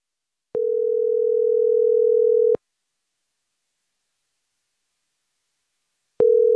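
Telephone tone heard while redialing a caller: a steady mid-pitched electronic tone sounds alone for about two seconds, stops for a long silence, then resumes at the end.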